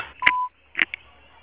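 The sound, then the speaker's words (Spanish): A voicemail system plays a single steady electronic beep, clear and medium-pitched, lasting about a third of a second, with a couple of short clicks around it and then near silence. “Deja tu mensaje después del tono.”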